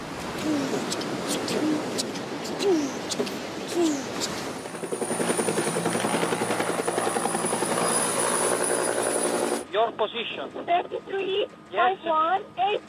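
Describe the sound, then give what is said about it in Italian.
A helicopter drones steadily in a film scene about migrants at sea, its rotor hum holding for several seconds, then a narrow, crackly coast guard radio voice comes through in short bursts. “Avete sentito suoni di mare, suoni di elicotteri, suoni di guardia costiera che chiede la posizione”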